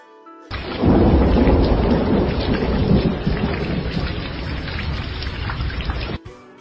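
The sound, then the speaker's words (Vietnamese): Thunderstorm with heavy rain and loud rumbling thunder: a dense, steady roar begins abruptly, holds for about six seconds at full strength, then cuts off sharply. “Bầu trời đen kịt, mềm mông, bát ngát, sấm sét ầm ầm đinh tai nhức óc, tia chớp xanh xé tỏa không trung.”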